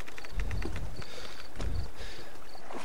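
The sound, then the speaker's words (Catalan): Oars working the water as a soldier rows a boat toward shore before an attack, with a few deep, sloshing strokes in a steady rhythm over a continuous wash of water noise. “Estic concentrat en remar.”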